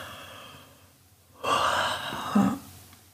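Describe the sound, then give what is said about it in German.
Deep breathing during a guided meditation: after soft, faint breaths, one long, airy, full breath swells in the middle and tails off, with no talking. “Vertiefe deinen Atem wieder. Nimm ein paar tiefe Atemzüge”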